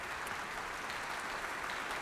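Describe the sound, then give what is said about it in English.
Audience applause and ovation at Adelaide Town Hall after an orchestral concert: dense, continuous clapping from a large crowd, steady and fairly faint throughout. “We can hear right now a huge ovation from the audience around us here at Adelaide Town Hall on Kaurna Country.”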